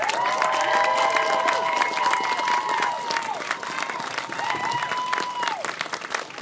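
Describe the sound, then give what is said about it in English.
Applause and cheering from an audience welcoming a new university chancellor on campus. A dense, steady roar with shrill whoops and whistles on top dips briefly after about three seconds, then swells again. “So, UWT, let's give a rousing welcome to our new chancellor, Dr. Sheila Edwards-Lang.”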